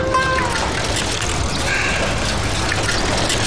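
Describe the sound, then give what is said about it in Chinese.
Running water pours steadily as someone washes their hands, a dense, even hiss that fills the whole stretch without a break. “哥，我现在洗手。”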